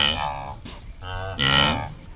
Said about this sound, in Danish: Og hvis vi lige hører et lille, så kan I næsten høre, at de siger gnu, gnu, gnu, gnu, gnu.